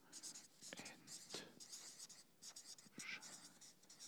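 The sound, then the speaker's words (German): Pen scratching on paper as something is written down by hand, in a few quick strokes with short pauses. Soft, quiet voices murmur alongside. “Schreiben wir gleich so hin hier.”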